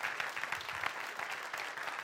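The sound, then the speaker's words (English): Applause from a church audience giving a hand clap of praise: a dense, steady patter of many hands clapping together that fills the whole short clip without pause. “Give the Lord a hand clap of praise.”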